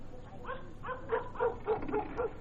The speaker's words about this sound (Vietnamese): Tiếng chó sủa quá lớn ở trong đêm ấy,